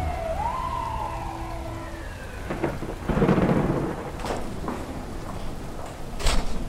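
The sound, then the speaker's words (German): Thunderstorm as a storm front from the North Atlantic moves over a city: steady rain hiss under low rolling thunder rumbles, with a wailing siren-like tone sweeping at the start. “Vom Nordatlantik zieht eine Sturmfront über die Stadt.”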